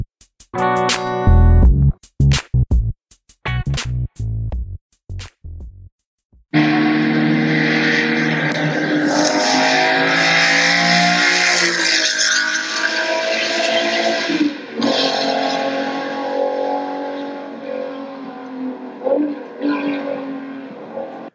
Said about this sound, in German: Millionen muss er hinlegen, damit das Ding dir gehört, was du gerade gehört hast. Nämlich einen Ferrari 250 GTO Berlinetta.